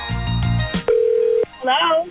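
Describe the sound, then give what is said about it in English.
A telephone call is placed to a contest winner: a steady single phone tone sounds for about half a second. Voices come before it, and a voice answers right after. “Let's see if we can get her on the phone.”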